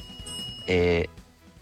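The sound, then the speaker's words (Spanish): A single bell-like ring, bright and sustained for under half a second, standing out loudly against an otherwise quiet background. “eso fue como un timbre.”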